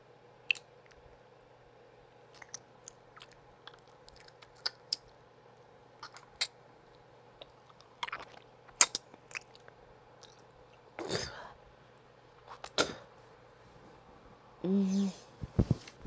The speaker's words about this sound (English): I'll just suck on my fingers a little bit. Get them like really wet